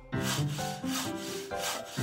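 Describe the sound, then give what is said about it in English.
Wood being sawn gives a few long back-and-forth rasping strokes, each a grainy scraping sweep at an even rhythm, with no talk. “10 little elves are sawing.”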